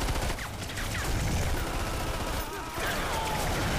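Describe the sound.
Video game gunfire as a dense, continuous fusillade of rapid shots with a few thin whistling streaks on top. It dips briefly near the end, then resumes at full intensity.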